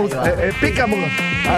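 A mosquito buzzing sound effect gives a continuous whining drone with wavering pitch and a bright, rich harmonic tone, loud and unbroken throughout.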